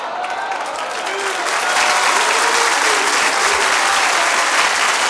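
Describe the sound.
An audience at a religious speech breaks into loud applause. The clatter of many hands swells after the first second and holds strong and steady to the end.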